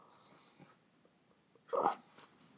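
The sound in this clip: A small white dog, thought to be a Bichon Frise, makes two short, faint vocal sounds, a soft whimper followed after a pause by a slightly louder yip, over near-silence.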